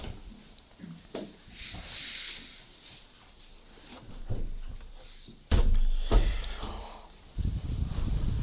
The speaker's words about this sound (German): Und wir können jetzt die Fenster wieder schließen, bevor ich dann noch mit uns gemeinsam beten werde.